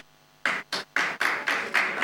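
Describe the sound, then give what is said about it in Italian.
Applause in an Italian city council chamber, heard as six sharp, separate hand claps in a steady rhythm, each with a short ringing tail and brief quiet gaps between. “Non si può applaudire, vi ringrazio.”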